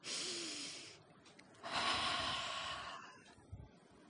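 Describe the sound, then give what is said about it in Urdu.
A deep breath is drawn in through the nose and let out through the mouth during a calming breathing exercise. Two long, airy rushes of breath are heard, the second louder and fuller, with no talk over them. “ایک سانس اندر لیں اور سانس کو پھر جب نکالیں تو منہ سے نکالیں اب آپ چاہیں تو میرے ساتھ کر سکتی ہیں”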